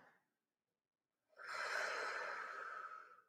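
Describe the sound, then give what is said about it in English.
Breathing during a yoga class: a faint, brief breath, a pause, then one long, airy breath that stays loud and steady before fading at the end. “Breath in and breath out. Take one more breath.”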